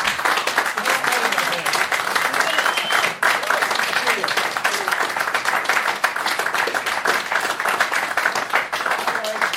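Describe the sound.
Audience applause welcoming a rock band at a town hall in New York City: dense, continuous clapping from a crowd that stays strong and even throughout.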